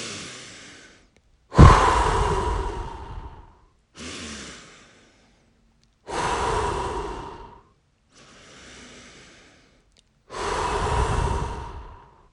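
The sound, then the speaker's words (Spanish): Three slow, deep breaths: each quieter inhale through the nose leads into a longer, louder whooshing exhale through the mouth, with brief silences between them. “respira profundamente 3 veces seguidas. Vas a inhalar por la nariz y vas a exhalar por la boca”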